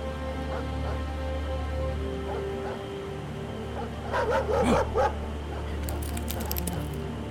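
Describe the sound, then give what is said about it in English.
A pack of hounds yelping and barking over a steady low rumble, the dog voices swelling into a louder cluster of cries midway before thinning out. “I woke with a start by a sound that told me I had new things to learn about fear. A pack of hounds.”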